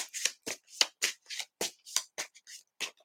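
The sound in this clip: Tarot cards are shuffled for a reading, producing many quick, crisp riffling bursts in an uneven rhythm with short gaps between them and no voices.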